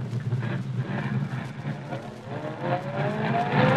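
A car speeding off over a bumpy road: a continuous, loud engine rumble with rough noise throughout, and a whine rising in pitch toward the end.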